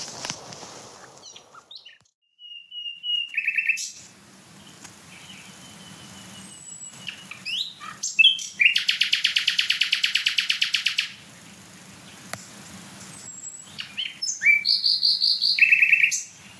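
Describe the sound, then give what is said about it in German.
Nightingale singing, a loud run of varied whistled phrases and sharp chirps with a long, rapid rattling trill in the middle and bright repeated notes toward the end. “Also hier stehen die wieder mal von der Nachtigall. Boah, die richtig Gas gibt.”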